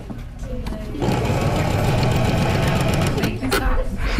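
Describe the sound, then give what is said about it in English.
A sewing machine stitches fabric in reverse. A steady, busy mechanical whir starts after about a second and runs loud and constant to the end, with a brief dip near the close. “you're going to push down the reverse button. The machine will move the fabric itself. So all you're doing is just steering left to right.”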